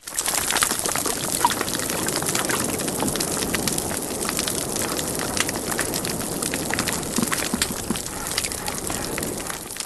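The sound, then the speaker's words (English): Underwater sound of a healthy coral reef in Fiji with fish and crustaceans of about fifteen species: a dense, steady crackle of clicks and pops mixed with a broad hiss, unbroken for the whole length. “We have a coral reef in Fiji, and let's listen to that now.”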